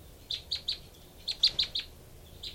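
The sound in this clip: Two birds, a female and a male, trade high, thin chirps in short clusters: three quick notes, a pause, then four more, and a single chirp at the end. The calls are faint over a quiet background.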